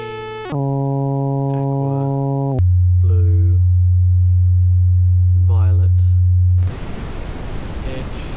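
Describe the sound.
Synthesized electronic tones step downward in pitch: a buzzy, harmonic-rich tone that dips at its start, then a loud, steady, much lower hum, ending in a burst of hiss. A faint voice is heard between the tones.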